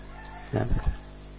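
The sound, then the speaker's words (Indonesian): A brief rooster crow at dawn: one short, throaty burst lasting under half a second, rising out of a faint steady background hum. “Ayam berkokok.”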